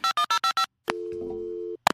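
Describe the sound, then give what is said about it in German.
Telephone ringing tone while placing a call: five quick, evenly spaced bursts, then one steady mid-pitched ring lasting just under a second, followed by a short click. “Lass uns doch mal Judith anrufen.”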